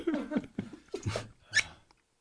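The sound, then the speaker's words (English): A squeaky screen door on a police squad car gives a few short, high, creaking squeals in an uneven rhythm. Each squeal wavers in pitch, and the last one is the sharpest. “here in Euless, in our squad cars, all we got is the... screen car doors.”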